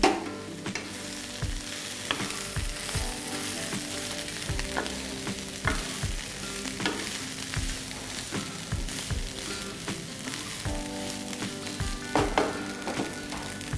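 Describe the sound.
Steady sizzling of jeera rice being stir-fried in a hot pan, with many sharp scrapes and knocks of the stirring utensil against the pan over continuous frying crackle, without any talking.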